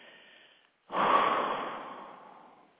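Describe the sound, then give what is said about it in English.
A deep breath in, then a long, forceful breath blown out, during a guided breathing exercise: a soft, hushed inhale followed by a short pause and a loud rushing exhale that fades away gradually. “Take a deep inhalation and blow the breath out with the intention to blow away, to let go of everything that might distract you in this moment.”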